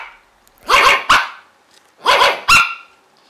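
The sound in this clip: Dogs of a pack barking, with four loud, sharp barks in two quick pairs separated by a short silence.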